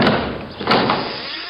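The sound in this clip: A door being opened, a broad rustling scrape with a dull thud about halfway through, moderately loud and with no voices.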